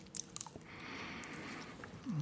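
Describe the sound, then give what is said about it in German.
Someone chews food in soft, moist bites with faint squishing and crunching. A few sharper clicks come near the start, and the sound stays quiet throughout with no talking. “War auch noch ähm, relativ frisch gekauft. So, ich esse ihn mal nicht ganz auf. Dann habe ich noch was für später.”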